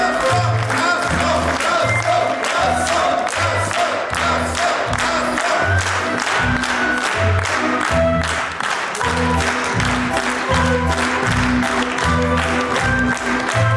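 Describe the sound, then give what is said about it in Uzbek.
A theatre audience in Uzbekistan applauding the director who has come onstage after a play, loud and sustained clapping with a steady rhythmic pulse and some cheering mixed in. “Sahnaga chiqqan rejissor Jo'rabek Ro'zmetov yuldasta va olqishlar nishoniga aylandi.”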